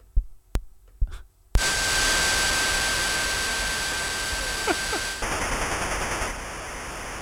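A video game loads from cassette tape: a few sharp clicks, then a loud, steady, screeching hiss with a thin high whine, changing near the end into a harsher buzzing data warble.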